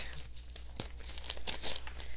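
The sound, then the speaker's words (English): Paper crinkles and tears as a large flat envelope is opened, in a run of irregular rustles with a few sharper rips, fairly faint and without talk. “This one is a large flat envelope”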